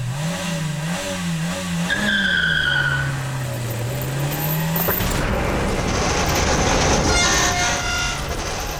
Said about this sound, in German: entweder ich habe eine Gehirnerschütterung oder da fährt gerade tatsächlich ein Auto mit einem Tresor im Schlepptau.